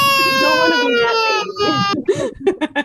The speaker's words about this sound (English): Because the baby sound we want to get rid of is this one.